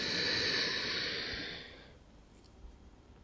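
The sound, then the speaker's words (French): A breath drawn in during a guided breathing exercise: a soft, airy inhale that is strongest at first and fades out after about two seconds, quiet and with no talk. “Allez, on décolle. On inspire, on monte.”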